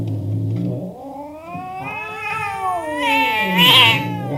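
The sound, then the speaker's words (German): Cats screeching as they attack a person, heard as a loud, drawn-out caterwauling yowl that wavers and rises in pitch, turning harsher and shriller toward the end. “Da rasten die Katzen auf mich los und schrien und bissen sich an mir fest.”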